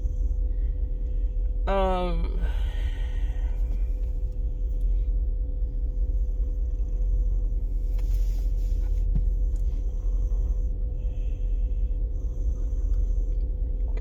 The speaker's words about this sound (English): I thought that was me in my brakes. It's this UPS vehicle behind me.